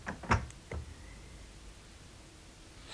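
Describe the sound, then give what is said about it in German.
A window and a ventilation flap are shut, giving a couple of short clunks, the first the loudest, followed by faint steady hiss. “Er schließt das Fenster und die Lüftungsklappe.”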